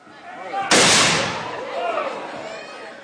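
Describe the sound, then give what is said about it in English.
A single musket shot fired by a colonial marching band at a parade: one sharp, loud crack with a decaying tail, set against murmuring crowd voices. “You will now hear them firing a single musket shot.”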